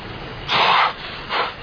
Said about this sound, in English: Excuse me, but you're spraying everywhere.